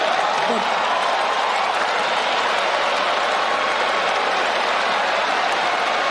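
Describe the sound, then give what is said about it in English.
An audience gives a prolonged standing ovation, with George and Laura Bush seated on the dais: a dense, even roar of many hands clapping that holds at a constant loud level throughout, with no pauses. “Here he's getting a prolonged standing ovation from the audience.”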